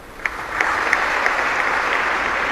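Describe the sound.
Applause at a medal award ceremony, a steady wash of many hands clapping at even loudness, with a few sharper claps standing out near the start.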